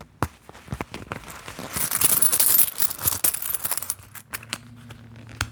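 Coins rattling and clinking inside a minimalist wallet: many sharp metallic clicks and jingles in a dense, irregular burst that swells through the middle and then thins out, with no talk.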